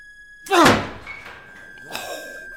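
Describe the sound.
A door forced open with a hard push gives one loud, heavy thud, followed by quieter rattling and scraping.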